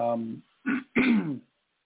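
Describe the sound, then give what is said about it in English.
Throat clearing from a person who is still unwell: a few rough, guttural bursts, the first voiced and droning, then two short harsh rasps, fairly loud and heard alone without speech. “if I have to clear my throat a couple of times during the night, I'm sorry.”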